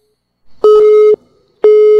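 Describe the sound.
Telephone busy tone after the caller hung up: two steady, mid-pitched electronic beeps separated by a short gap, the second cut off at the end, with no voices over them.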